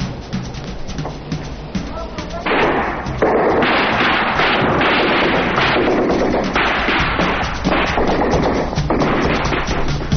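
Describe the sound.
Gunfire from snipers at the U.S. Embassy compound in Saigon: a string of sharp shots and heavy thumps on a thin, band-limited archival recording, loud and continuous.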